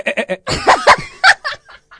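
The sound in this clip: A human voice imitates a sheep's bleat, producing a short run of quavering, nasal bleat-like bursts of uneven length, with several quick pulses at the start and fainter ones trailing off at the end.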